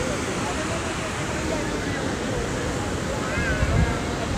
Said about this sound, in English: I'm out on a pier and it goes far out into the ocean. I came up to the waves to do an audio recording for you